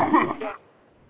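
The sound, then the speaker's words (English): A vomiting sound effect, a single short, guttural retching burst lasting about half a second before cutting off into silence. “it sounds like somebody hurling”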